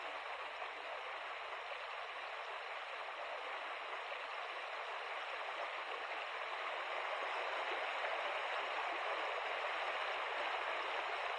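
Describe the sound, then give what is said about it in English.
A connecting stream between two lakes, run by canoe, flows in a steady, unbroken rush of water that holds an even, moderately loud level throughout, with no voices. “It is always enjoyable to run the connecting stream between the lakes.”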